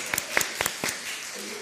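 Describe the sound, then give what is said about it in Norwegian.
Sparse audience applause: a few distinct, sharp hand claps in an uneven rhythm that die away after about a second. “Yeah, you can applause. That's fine.”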